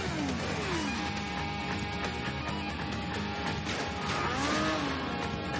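Motorcycle engine roaring as a rider jumps over a man during a chase in a 2000 spy action film. The engine whine is loud and continuous, with sweeping pitch changes inside a dense wash of action noise.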